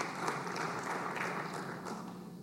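An audience at the Missouri State Capitol applauds to welcome visiting students. The clapping is brief, dense and even, holding at a steady level.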